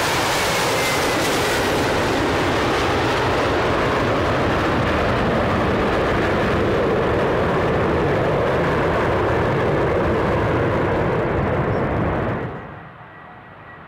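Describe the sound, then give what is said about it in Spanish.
A loud, steady roar of an airplane taking off: a broad, continuous engine rush that holds for about twelve seconds, then drops abruptly to a faint low rumble. “con este despegue, aquí vamos, aquí despega Relieves.”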